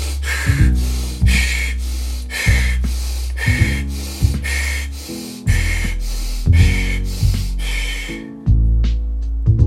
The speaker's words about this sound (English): Okay, let's build the pace a little bit more. Inhale, nose, exhale, mouth still.